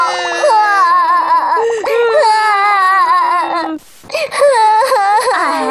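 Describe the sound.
Children cry and wail loudly and continuously in high, quavering sobs, breaking off briefly before the crying starts up again.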